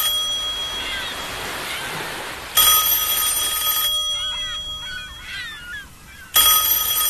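A telephone bell ringing in an old Cantonese TV cartoon, heard as two loud, bright bursts of ringing. The first burst is longer, and the second cuts in near the end, with quieter sound between them.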